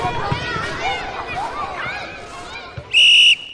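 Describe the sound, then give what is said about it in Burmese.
A single sharp whistle blast sounds on a sports field during team training, loud, high and steady for under half a second, after people talk and move about in the background. “ဒီလိုလေ့ကျင့်နေကြချိန်မှာဝီစီဇန်တစ်ခုကကွင်းထဲမှာရုတ်တရက်ပေါ်လာပါတော့တယ်”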